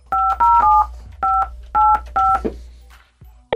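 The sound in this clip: Telephone keypad tones as a number is dialed: six clear, even-pitched electronic beeps in an uneven rhythm, two running back to back, followed by quiet and a brief click at the end.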